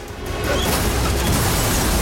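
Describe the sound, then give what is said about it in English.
A car is dropped into a scrap crusher and its glass shatters: a loud, dense crashing roar swells over the first half-second and then holds steady to the end. “The car's dropped into the crusher, showering Alex with glass.”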